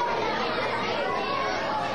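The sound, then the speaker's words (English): Children's voices fill a school lunch period as about 100 third and fifth graders chatter while eating, forming a steady, dense babble with no single voice standing out. “that's the sound of about 100 third and fifth graders eating lunch at school.”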